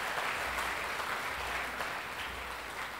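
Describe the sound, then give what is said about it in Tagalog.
Applause from an audience during a Christmas church service: dense, steady clapping that runs unbroken through the whole stretch at a fairly soft, even level. “Isa pang palakpak sa ating Panginoon, mga kapatid.”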